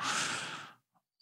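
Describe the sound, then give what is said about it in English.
A person takes a single audible, sigh-like breath before speaking, a soft rush of air lasting under a second. A couple of tiny faint clicks follow it. “I thought you took a breath to say something.”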